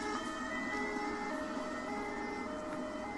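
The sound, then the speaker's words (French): Siren wailing outside: a sustained, steady wail holding level tones throughout at a fairly low volume, with no voices over it. “C'est la sirène qui fait le bruit, c'est pour ça qu'on ne t'entend pas bien.”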